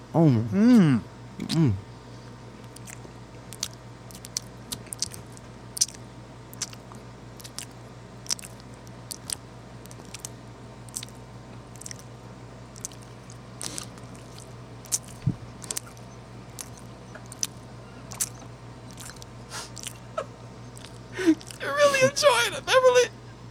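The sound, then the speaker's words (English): Biting into and chewing a slightly dry cupcake with a scone-like texture gives faint, sporadic moist clicks and squishes, with brief voices at the start and end. “It's got a texture of a scone, which is a bit of exotic, but I like it. If we would have had it fresh out the oven, it would have been a bit more tasty. Let's take a bite here.”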